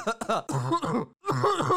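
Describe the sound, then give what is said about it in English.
A voice imitates a cough, giving a few short, rough, throaty bursts that sound like throat clearing, separated by a brief pause. “or maybe a cough where you go”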